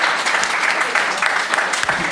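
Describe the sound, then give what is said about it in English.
Audience applause after an answer in a wine quiz; a steady burst of many hands clapping at moderate loudness, continuing throughout. “Round of applause for that answer, please.”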